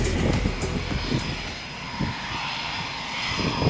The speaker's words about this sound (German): So klingt es also, wenn ein Eurofighter der Luftwaffe am Hannover Airport auf seine Abstellposition rollt.